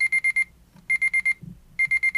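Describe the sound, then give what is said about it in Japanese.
A digital alarm clock sounds its set alarm: three bursts of four rapid, high-pitched electronic beeps, each burst separated by a short pause. “アラームボタンを切り替えまして、アラームをセットします。”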